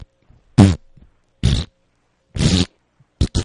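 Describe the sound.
A voice imitates the farting noises made while doing crunches: five short, buzzy, raspberry-like bursts, the last two close together, with quiet gaps between.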